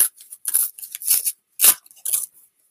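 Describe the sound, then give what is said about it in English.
Paper crinkles and tears as a small envelope is opened, a series of short, crisp rustling bursts with quiet gaps between, the loudest falling just past the middle. “And go ahead and open the envelope up, and you're going to see four pieces”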